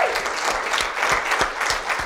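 Audience applause congratulating a team: dense, steady clapping from many hands, fairly loud and continuous throughout.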